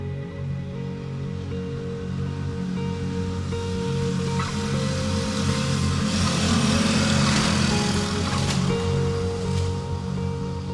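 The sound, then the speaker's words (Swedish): Small engine of a cargo moped carrying a coffin: a steady, low puttering hum runs throughout, growing slightly louder around the middle before holding level to the end. “så bärs pappas kista ut och placeras på Gunnars flakmoppe. På den har han kört det mesta man kan köra. Och så får den resa ut i världen.”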